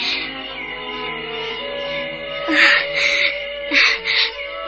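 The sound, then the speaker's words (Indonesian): A girl cries with shaky, wavering sobs that swell into several louder wailing bursts toward the end. “Jangan menangis anakku.”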